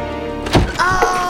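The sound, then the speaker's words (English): A door is pulled open with a heavy, dull thunk, followed by a brief rattling, scraping tail as it swings. “Just be ready. Ready for what? Ready to run. I've got a plan. What is it? You'll see. As soon as I open this door...”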